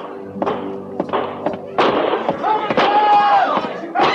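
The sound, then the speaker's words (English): Gunshots ring out around a stockade in an old frontier-fort setting. Several sharp, thudding cracks come in an irregular series, mixed with voices talking. “Where are those shots coming from, Captain?”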